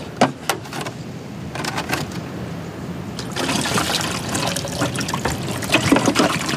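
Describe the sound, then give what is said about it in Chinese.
Water is poured in to fill up a container: a steady splashing trickle with scattered drips, growing slightly fuller and louder in the second half. “你加水啊。”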